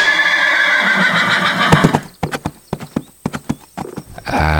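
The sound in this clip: A ridden horse whinnies loudly before setting off, and a quick, uneven run of sharp clip-clopping hoofbeats follows the long neigh.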